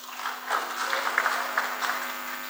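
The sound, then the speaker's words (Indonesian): Audience applause follows a speech by a foreign ministry official at a university alumni gathering, steady moderate clapping over a low electrical hum. “Kita berikan aplaus sekali lagi.”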